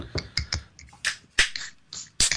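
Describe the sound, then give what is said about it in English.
Beer cans being cracked open, a series of sharp metallic clicks and brief hissing bursts scattered irregularly, with a louder fizzing pop in the middle and another near the end. “we're drinking a couple beers, so let's start by cracking open what we're drinking.”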